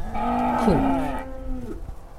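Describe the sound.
A single cow moos on a farm, a long, low harmonic bellow that dips and bends in pitch midway before trailing off, heard on its own.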